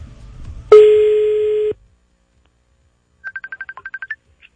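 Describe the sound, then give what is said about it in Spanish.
A telephone is dialed to put a call on air: a steady tone of about a second gives way, after a pause, to a rapid run of short, bright keypad tones. “Póngame la llamada al aire.”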